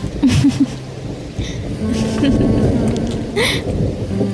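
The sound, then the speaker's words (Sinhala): Steady rain pours down as a dense, continuous hiss, with low rumbles that could be thunder, holding at an even, moderately loud level throughout. “ධාර වැස්ස දිහා බලාගෙන ඒ අතේ තිටම ගියා.”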